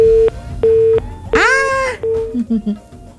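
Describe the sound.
A busy tone sounds as a phone call to a dangdut radio call-in show is cut off: a few short, steady, mid-pitched beeps with a voice speaking over and between them.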